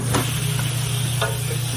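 Searing of a ball of beef smashed thin into a burger patty, a loud, constant sizzling hiss broken by a few brief scraping ticks.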